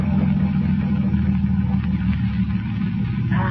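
Motor of a slow-moving boat approaching a channel, a steady low rumbling drone that holds constant throughout the short stretch.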